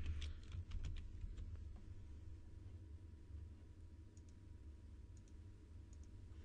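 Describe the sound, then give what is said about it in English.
Computer keyboard typing as a SELECT command is entered in a new query window: a quick run of faint key clicks at first, then a few scattered keystrokes over a low steady hum. “So I'm just going to open a new query window, and I'm just going to type the select command here.”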